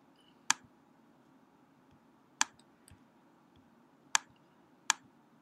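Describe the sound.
Computer mouse clicks while selecting campaign keyword settings on screen, four sharp, isolated clicks at irregular intervals, faint against a low steady hum, with one weaker tap between.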